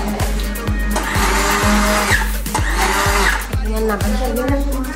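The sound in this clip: A blender whips eggs and oil into a homemade sauce, its loud, steady motor whine broken by a regular thumping pulse about twice per second.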